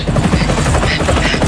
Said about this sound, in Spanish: voy a intentar hacer lo que pueda con el helicóptero